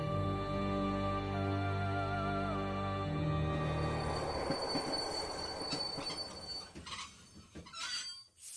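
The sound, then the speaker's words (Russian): Train wheels on rails make a drawn-out metallic squeal of steady high tones over a low carriage rumble. After a few seconds this gives way to irregular clattering and clicks, which then cut off abruptly. “Стук колес оборвался внезапно.”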